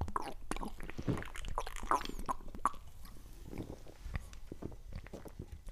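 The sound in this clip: Soft wet gulps and mouth sounds of someone drinking Pale Ale from a glass bottle, a run of small swallows and clicks at a moderate level with no clear speech.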